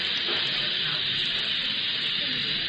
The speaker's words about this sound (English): The acetylene torch is slowly melting the lead, which covers this strong box entirely.